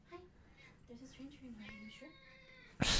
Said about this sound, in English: fucking my wife's cat wants in